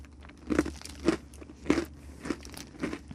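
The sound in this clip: Crisp crunching of a silkworm cookie being bitten and chewed, five sharp, evenly spaced crunches at a steady rhythm, moderately loud with no talk.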